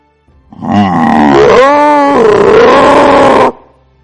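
An enraged demon beast gives one loud, piercing roar lasting about three seconds. Its harsh, growling tone shifts in pitch as it goes, then it stops abruptly.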